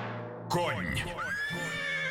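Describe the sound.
A horse neighs in a men's shower gel advert. After a moment of silence a single loud whinny bursts in, its harmonics wavering and sliding in pitch as it trails off.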